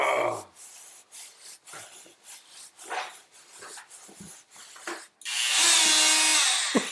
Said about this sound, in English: Here's the sound of me rubbing my tits.